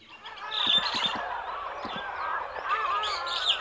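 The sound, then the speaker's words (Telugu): Crow cawing from a star fruit tree, harsh honking calls repeated several times, mixed with thinner chirps, moderately loud. “ఏం జరుగుతుంది ఇక్కడ? ఆ కాకి అక్కడ ఏం చేస్తుంది?”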